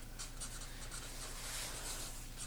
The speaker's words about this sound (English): I'm writing an unbalanced attempt at balance.